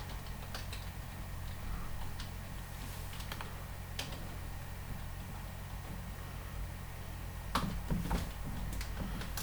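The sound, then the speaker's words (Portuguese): Someone types on a computer keyboard, producing sparse, quiet keystroke clicks over a low steady hum. A short cluster of louder taps comes near the end. “Pronto, eu vou agora digitar o meu.”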